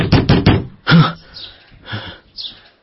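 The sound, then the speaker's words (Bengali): Loud rattling knocking at a door, a rapid cluster of hard strikes at the start, followed by a few softer scattered bumps. “জোর খটখট শব্দে চমকে জেগে উঠলাম।”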